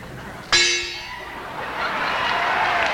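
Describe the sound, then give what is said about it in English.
A large gong struck once at a live rock concert gives a sudden bright crash that decays into a long shimmering wash, with broad noise swelling louder behind it. “Gross Trouble, Large Gong, and Imported Edmonton Gong.”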